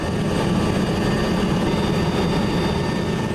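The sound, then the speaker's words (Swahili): Steady, loud engine drone of a United Nations aircraft carrying wounded people to medical treatment after violence, a constant low roar that stays level throughout. “Msikilizaji, mlio unaosikia ni wa ndege ya Umoja wa Mataifa ikibeba sehemu ya majeruhi kuelekea kupata matibabu baada ya ghasia katika eneo hili.”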